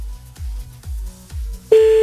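A telephone call is redialed: a few evenly spaced low thumps, then a loud, steady tone on the line that holds to the end.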